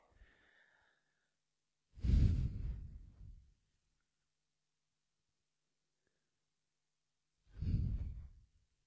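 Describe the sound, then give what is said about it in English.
Deep breathing during a relaxation exercise: two slow, audible breaths, each a soft, airy rush lasting over a second, separated by a long stretch of quiet. “Take a few deep breaths just to release the abdomen, release any tensions in the stomach area.”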